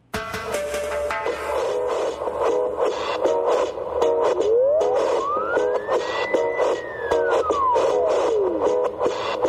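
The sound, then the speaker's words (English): A siren wails on a New York City street in one slow sweep that rises and then falls in pitch. It sounds over a dense, pulsing background that stays steady throughout. “Yes, this is the sound of New York City,”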